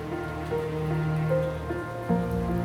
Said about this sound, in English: As the crystal rain pours, the stones rise around you,